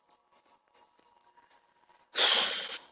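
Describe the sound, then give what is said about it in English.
Three playing cards falling out of a deck: faint, light scratchy ticks first, then a brief, loud rustling burst as the cards spill out. “Three cards fell out”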